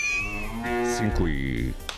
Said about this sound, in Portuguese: As vaquinhas. Que coisa mais linda!